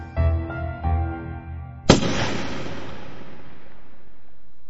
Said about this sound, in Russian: Он ступил шаг, и выстрел раздался.